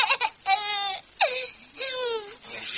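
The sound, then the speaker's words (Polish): A baby cries in a few drawn-out, high wailing bursts separated by short pauses, clear and fairly loud with no other sounds. “Kochanie, nie płacz.”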